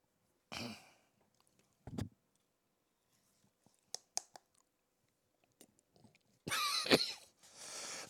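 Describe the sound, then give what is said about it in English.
Harsh coughing from someone who swallowed snuff: a few short rough bursts spaced apart, faint clicks and mouth noises in between, then a louder, longer coughing fit near the end. “I'm coughing so much because I think I swallowed a little bit of snuff.”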